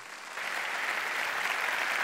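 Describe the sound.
A church audience at Northview applauds to welcome a speaker. The steady, dense clapping swells in just after a brief quieter moment and then holds at an even level to the end.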